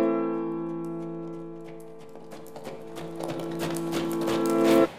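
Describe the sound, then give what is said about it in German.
Hoofbeats of the French emperor's guard horses riding through the Brandenburg Gate: many clopping strikes grow steadily louder over a sustained tonal background, then break off sharply near the end. “Kurz darauf reitet der französische Kaiser an der Spitze seiner Garde durch das Brandenburger Tor.”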